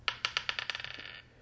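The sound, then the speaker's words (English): Dice rattle during a prize draw, with many sharp clicking bounces on a hard surface. The bounces come quicker and softer until they fade out alone. “Is this fixed dice? Let's roll it again.”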